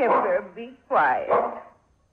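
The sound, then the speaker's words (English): An old dog barks in a couple of drawn-out, tonal, whining bursts, the second broken into two swells, before it trails off to quiet. “be quiet. He knows, poor old dog.”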